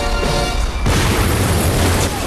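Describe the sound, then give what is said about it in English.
A huge explosion blasts through a door in an underground lair, a loud sustained boom with dense rumbling low end and crashing debris that fills the whole clip. “A huge explosion rips through a door.”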